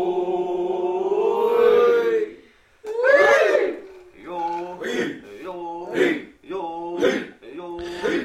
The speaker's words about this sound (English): We're listening to a traditional song from the Na-Chi Nation, which I recorded at the annual powwow held at the Grand Village in Natchez